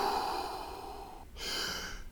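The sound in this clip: Breathing in and out during a guided breathing exercise: a long, airy breath, a brief pause, then a second steady breath, moderately loud.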